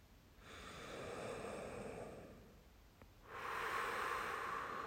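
Two slow, deep breaths drawn in during a guided meditation, heard as soft, airy rushes of air separated by a short pause; the second breath is brighter and stronger than the first.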